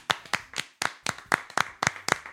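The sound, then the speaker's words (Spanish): Applause from a small group, clapping hands in several short bursts with quick, uneven rhythm that rise and fade, loud and alone without talk. “Yo creo que se merece el aplauso, ¿eh? Venga.”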